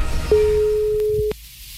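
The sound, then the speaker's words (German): A telephone ring tone on a phone line: one steady, mid-pitched electronic tone lasting about a second, heard alone and ending abruptly. “Wir lauschen jetzt mal dem Telefon. Das klingelt nämlich gleich.”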